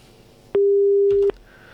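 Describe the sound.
A single steady telephone tone follows a dropped caller's line. It lasts under a second and is loud and clear over a quiet background.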